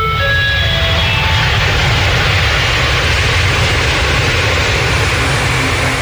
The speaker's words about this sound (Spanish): Vamos bajando un poco de ya bastante cerca del aterrizaje, pero todavía falta un poquito más de viaje.